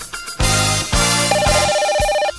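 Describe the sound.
A telephone rings with an incoming call to a radio station: a few loud, regular pulses, then a trilling electronic ring tone that warbles through the second half.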